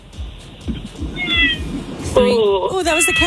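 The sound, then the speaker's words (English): A cat meows a few times, the last cries loud, drawn-out and strongly tonal, with people talking in the background. “that was the cat.”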